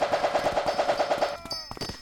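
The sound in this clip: Rapid automatic gunfire in a video game, with pachinko balls fired at a soldier: a fast, even burst of punchy pops runs for over a second, then stops, leaving a ringing tone and a few faint clicks.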